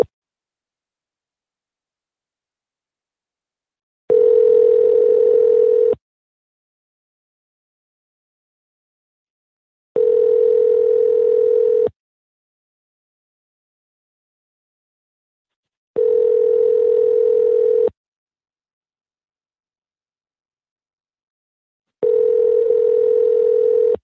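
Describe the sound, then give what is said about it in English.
Telephone ringing tone heard while calling a number: four steady, mid-pitched tone bursts, each about two seconds long, separated by silent gaps of about four seconds. “Let's call another number here. It's another number that could be a business”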